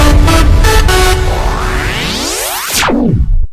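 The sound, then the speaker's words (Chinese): Car horns honking in busy city traffic: a few short, loud honks at the start give way to a long rising whooshing sweep that peaks and then cuts off abruptly, with no voices. “你以为你听见的只是城市车水马龙， 你听到的是城市的脉络律动。”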